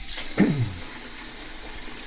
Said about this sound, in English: I'm standing in front of my kitchen sink, washing my teacup, because there's kitty fluff in it.